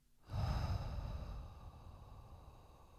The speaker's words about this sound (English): let's take a breath together. So, breathe in. Hold. Breathe out.